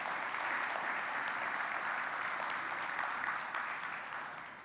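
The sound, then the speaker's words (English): A church audience gives a round of applause after a prayer: a dense, steady wash of many hands clapping that holds strongly and then eases off slightly toward the end. “Can we give them one more round of applause?”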